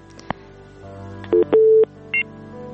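Telephone keypad tones dial the next caller on a radio call-in show: a sharp click, then three bright beeps, the middle one held longer than the others, over a low steady hum.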